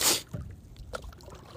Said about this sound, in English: hold on, I'm gonna move my paddle.